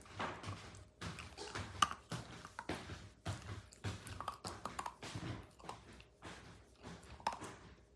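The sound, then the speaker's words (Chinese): A pet chewing and eating food, many soft, irregular crunching and smacking bites in a loose rhythm, fairly faint, with no talking. “太能吃了，这吃了多少啊？今儿啊，你今儿吃多少了？太能吃了吧？来，接着吃。”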